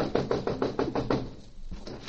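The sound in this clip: Knuckles rap on a door with a crepe hung on it: a quick, even run of seven fairly quiet knocks, then a short pause, with no voices.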